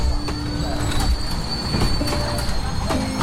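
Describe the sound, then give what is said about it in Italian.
A freight train of 14 silver LPG tank cars arrives from an oil refinery on a service line. It makes a continuous heavy rolling rumble, with high, sustained wheel squeals and faint rail clicks throughout. “Il convoglio merci è arrivato dalla raffineria Sarpom di San Martino di Trecate, attraverso un collegamento di servizio alla rete ferroviaria nazionale.”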